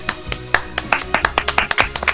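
One person claps their hands on cue while singing along. The claps are many, sharp and fairly regular, and they speed up slightly in the middle.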